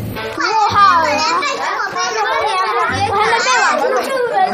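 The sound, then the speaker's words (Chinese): Chatter of many children coming back from afternoon classes: high, overlapping voices talk and call out continuously, with no pauses. “下午4点半，上课的孩子们放学回来，要做的第一件事就是找到吴老师，展示今天的学习成果。”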